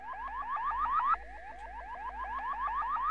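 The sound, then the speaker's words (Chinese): An estate's intruder alarm sounds as many rapid, evenly repeating upward-sweeping electronic whoops in a steady siren-like pattern, with a constant underlying tone, fairly faint. “现在我来给您操作一下，任何陌生人闯入庄园里，报警装置就会启动，并且马上启动雷达。”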